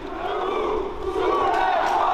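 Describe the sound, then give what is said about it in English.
Protest crowd at Place de la République in Paris, at night, chanting against the passing of the pension bill: a mass of voices shouts together in a continuous, loud chant. “Paris, stand up, rise up. That was the chant last night at the Place de la République, where once again crowds came out to denounce the passing of the pension bill”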